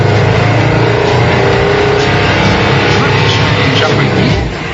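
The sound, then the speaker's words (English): A lightweight compressed-air prototype car with push-button gears pulls away after the clutch is let out, giving a loud, steady whirring drone that runs without a break and eases off slightly at the very end. “The key to an air car is to keep everything lightweight so you get the best possible mileage. Let's give it a go. Clutch out. Hey, it's working.”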